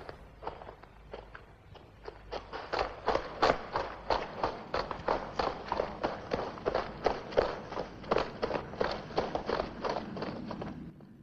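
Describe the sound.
Two people jog through a tunnel, their footsteps falling in a steady, even rhythm of many firm, moderately loud thuds that carry on without a break and without talking.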